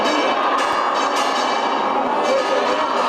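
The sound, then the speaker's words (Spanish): Church bells ring in Urda, Toledo, to welcome an image of Christ carried in procession to the parish. A dense, continuous clangour of strikes fills the whole stretch at a steady level. “Las campanas empiezan a sonar”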